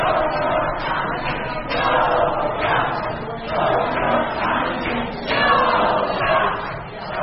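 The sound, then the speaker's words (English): Protesters gathered outside as Michigan's electors met in Lansing to formalize Donald Trump's election make a loud, continuous crowd roar of many voices, swelling and easing in repeated surges like chanting. “That is the sound of protesters as electors gathered in Lansing to formalize Donald Trump's election to the presidency.”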